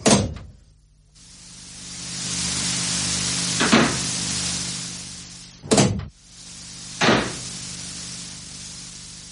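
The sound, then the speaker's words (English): A seat is adjusted inside an aircraft: a steady mechanical whirring drone runs through, broken by a brief quiet gap and a few sharp clunks and knocks. “Well, I think I've heard that sound before. And I'm adjusting the seat.”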